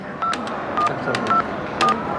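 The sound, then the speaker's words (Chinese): Telephone keypad tones ring out as someone dials a four-digit hotel room number from the front desk: four short, steady beeps spaced about half a second apart, fairly loud over a constant hissy background. “我朋友住在这儿，我给他打个电话。”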